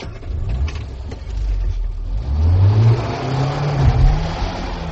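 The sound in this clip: A car engine revs as a learner-style drive deliberately strains the clutch. A low engine drone swells and climbs in pitch, then dips and surges again, loud and rough throughout.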